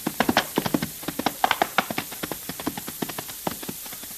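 Horses' hooves as riders approach: many quick, irregular clip-clop beats of fairly even loudness, with no voices.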